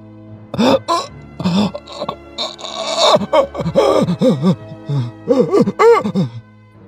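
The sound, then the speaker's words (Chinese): A man cries out in pain, anguished groaning sobs with wavering, rising and falling pitch, repeated in loud uneven bursts throughout. “忽然双手抱头，痛苦的哭了起来。”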